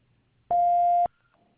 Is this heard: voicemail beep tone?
yes